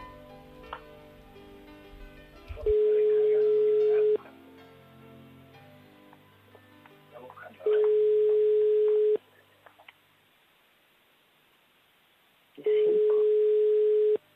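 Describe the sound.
Ringback tone from a telephone call being placed: three long, steady beeps of about one and a half seconds each, separated by silent gaps of roughly three and a half seconds, with faint background sounds before the first beep.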